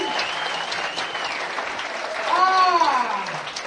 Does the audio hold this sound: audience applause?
yes